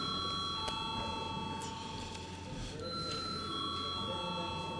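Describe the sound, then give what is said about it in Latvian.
A parliament voting bell rings in the chamber before a vote on urgency, a steady, sustained electronic ringing of several even tones that holds unbroken through the whole stretch over a low murmur. “Lūdzu zvanu.”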